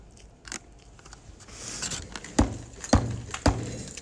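Someone biting into a sandwich gives a faint early crunch, then three sharp, loud crunchy bites spaced about half a second apart near the end, with no talking.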